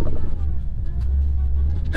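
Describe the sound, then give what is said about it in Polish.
Low, steady engine and road rumble of an older-generation Fiat Multipla driving slowly along a side road with its engine not yet warmed up, a continuous droning hum with no distinct events. “No Multipla już swoje lata ma. No jest to auto starszej generacji. Jedziemy sobie teraz taką boczną drogą. Nie jedziemy też za szybko, bo silnik nie jest rozgrzany.”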